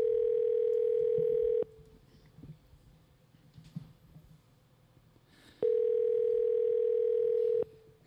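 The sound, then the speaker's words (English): A telephone line tone while calling someone: two long, steady, buzzing electronic tones, each about one and a half seconds long, separated by a quiet gap of faint background noise. “All right, here we go. We're going to dial him up right now.”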